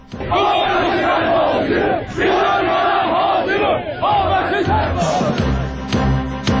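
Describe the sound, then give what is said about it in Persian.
Protest crowd at a Monday gathering in a city in Iran's East or West Azerbaijan province, shouting in unison in loud, rhythmic bursts of chanted phrases, then scattered voices and clatter near the end. “گزارشی خواهید شنید از تجمعات اعتراضی در چند شهر در استانهای آذربایجان غربی و شرقی در روز دوشنبه به خاطر پخش یک برنامه تلویزیونی ویژه کودکان از صدا و سیما.”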